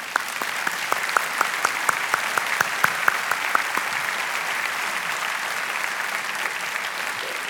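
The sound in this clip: Audience applause welcoming a guest onto a stage: several distinct, sharp claps stand out over the first half before settling into a dense, even patter that carries on steadily for about seven seconds.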